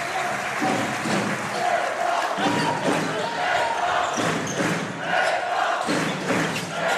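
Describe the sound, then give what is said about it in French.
Basketball arena crowd cheering and urging on the home team, a dense, steady roar of many voices that continues without a break throughout. “Et le public de Gaston Médecin qui pousse.”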